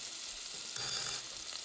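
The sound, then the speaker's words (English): Sweet potato chunks sautéing in olive oil in a pan on medium heat give off a soft, steady frying sizzle. The faint crackling hiss swells briefly midway, then settles back. “So I've peeled some sweet potatoes, 1 sweet potato actually, chopped it up into like chunks, and it is now sauteing in my pan with olive oil.”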